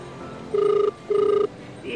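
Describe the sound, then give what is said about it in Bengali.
A telephone rings as a call is placed, giving two short buzzing rings with a brief pause between them over a steady low hum. “ফোনে ধরলেন অমলেন্দু পল্টুকে।”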